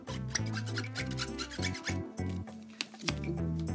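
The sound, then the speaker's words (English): A Pokémon trading card being scratched, a quick series of dry, raspy strokes over a low humming background. “when you scratch the card, when you hear that, that means it's rare.”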